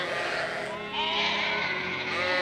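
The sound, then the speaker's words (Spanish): Sheep bleat in a dense, sustained wavering chorus that runs continuously at a fairly even level from start to finish. “Es una creencia muy común que de todos los animales de granja, las ovejas son las más tontas.”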